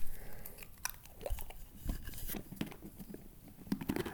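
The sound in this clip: Faint crunchy chewing and biting while someone eats a pretzel, with irregular bursts of dry crackling and munching that come and go in a quiet clip.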